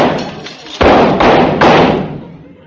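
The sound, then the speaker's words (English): Gunshots ring out in a radio drama as a man fires at someone hiding behind a bush: three loud, sharp reports in quick succession, each with a trailing decay, after a few softer knocks. “There. That'll fix him. I threw at least 3 slugs right through his shoulder.”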